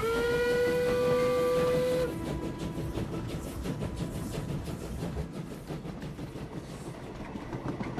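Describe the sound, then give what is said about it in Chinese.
A train bound for Hangzhou sounds a long, steady whistle. The loud, rhythmic rumble and clatter of the moving train then carries on alone. “主席， 这个列车怎么还没有到杭州呢？ 还有几站路。”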